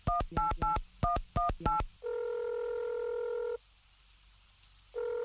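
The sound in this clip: Telephone dialing: a rapid run of short keypad beeps, then a long steady tone that stops, falls silent for over a second, and sounds again.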